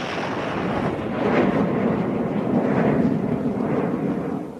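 Comic rocket launch sound effect, a broad roaring rumble that swells over the first second, holds as a thick rushing blast, then eases off slightly at the end.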